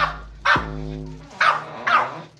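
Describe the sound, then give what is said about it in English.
A dog barks three times, each bark sharp, loud and separated by short gaps, with no voices in between. “You don't bark at Mamas.”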